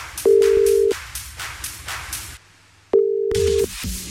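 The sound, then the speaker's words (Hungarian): A telephone rings out while calling a listener: two steady, low ringback tones separated by a pause, with music playing around them that drops out briefly between. “Aki elsőként küldött nekünk üzenetet a felhívás után, őt csörgetem most.”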